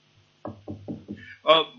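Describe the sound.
Four firm knocks on a door land in an even, steady rhythm, followed by a brief burst of a voice.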